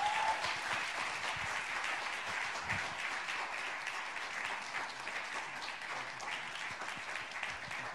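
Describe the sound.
An audience applauds to welcome a speaker at an evening church gathering, a steady sustained wash of clapping that runs evenly throughout, easing slightly toward the end.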